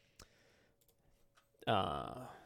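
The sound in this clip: A single sharp computer mouse click as a new notes page is opened, brief and crisp against near silence, followed by a person starting to talk.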